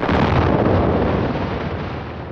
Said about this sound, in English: Instead of cutting into the side of a mountain, it's become common to blast the whole top off to get at the coal seams below.